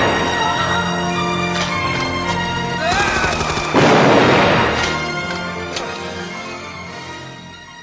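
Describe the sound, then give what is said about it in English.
A shotgun is fired in an action movie shootout: a loud, broad blast bursts out midway over a sustained tonal score that gradually fades afterward. “So that's a pinnacle action point of the movie, and Oscar Wallace gets to have his moment of becoming a badass, which he does with his shotgun.”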